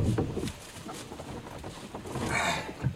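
Water sloshing and knocking as someone rows a boat, soft irregular splashes with a brief swell of rushing water near the end, all fairly faint.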